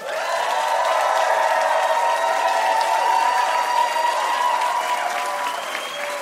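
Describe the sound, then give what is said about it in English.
Audience applause welcoming a special guest, a broad, sustained wash of clapping at a fairly even level that eases off slightly near the end, with no voices clearly emerging above it. “Give it up for Kal Penn.”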